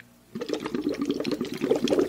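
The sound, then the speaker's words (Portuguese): Air blown through a straw into a water bottle as a breathing exercise, producing a steady bubbling gurgle that starts after a short quiet moment and continues without a break. “Isso, tu solta o ar dentro da garrafinha. Ele faz uma vibração também que ajuda um pouco a soltar o catarro”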